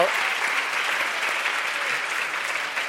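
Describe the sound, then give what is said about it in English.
Audience applause at a live talk with food writers: many hands clap together in a dense, even wash that holds steady and loud through the whole clip without a break. “So for that, we give a round of applause.”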